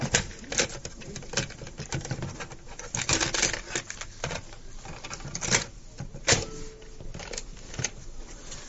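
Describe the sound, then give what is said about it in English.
A cassette tape being turned over in a recorder: scattered plastic clicks and rattling handling noises over several seconds, with a few sharper clacks. “Let me just take a moment and turn this tape over.”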